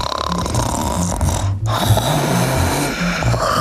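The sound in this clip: A voice imitates snoring, like a horse tired from running, in a children's movement game: a long, rough, rasping snore that breaks briefly and then continues as a second drawn-out snort.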